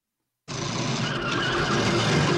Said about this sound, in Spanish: No sé por qué se ha colado un derrape.